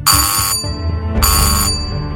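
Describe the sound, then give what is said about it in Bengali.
A hotel room doorbell rings twice, each a bright, sustained electronic chime with rich ringing overtones lasting about half a second, separated by a short gap, loud and with no talk. “ডোরবেলটা বেজে উঠল”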